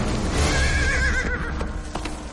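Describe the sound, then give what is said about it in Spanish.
A horse neighs in a long, quavering whinny during a mounted chase across open countryside, its wavering call riding over steady low rumbling noise, with no voices. “Águila Roja recupera rápidamente su katana, vuelve a montar en su caballo y le persigue.”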